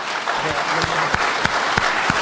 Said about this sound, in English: And I think there should be a applause.